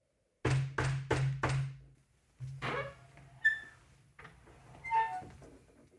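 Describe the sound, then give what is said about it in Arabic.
Four loud, evenly spaced knocks on a door, then softer clatter, a few thuds and faint ringing tones. “من الطارق؟ افتح يا مطعم.”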